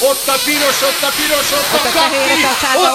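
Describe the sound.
Someone blows hard into a lung-capacity measuring device, a steady, loud breathy hiss running throughout beneath talking voices.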